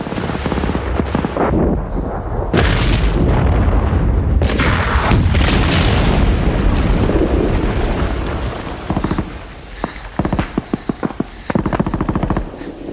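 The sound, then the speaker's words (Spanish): Hand grenades explode among the sandbags around a bunker in a World War II battle between German and American soldiers: a run of loud, heavy booming blasts, then rapid bursts of sharp gunfire-like cracks toward the end. “Varias granadas explotan entre los sacos terreros que protegen el búnker. Alemanes y americanos lanzan granadas de mano.”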